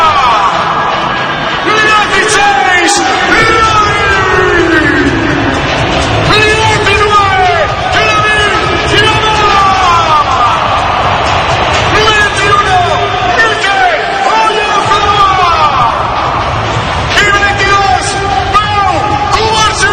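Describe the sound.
Spanish fans cheer at the final as the national team's starting lineup is read out, a dense, continuous roar of crowd noise with overlapping shouts and whoops that stays loud throughout.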